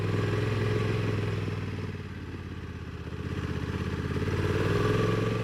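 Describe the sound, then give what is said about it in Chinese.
A Honda NT1100 motorcycle engine runs while being ridden, with the throttle blipped. The steady mid-pitched drone dips briefly, then swells back up louder. “补油门多补一下”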